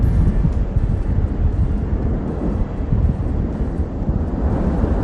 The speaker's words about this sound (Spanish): veamos sin dificultad la lava que escupe el volcán Cumbre Vieja y que además suene así de intenso.